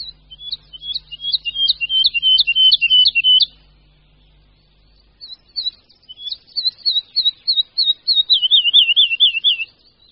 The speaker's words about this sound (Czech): Zmínil jsem se, že považuji skřivana lesního za našeho nejlepšího zpěváka.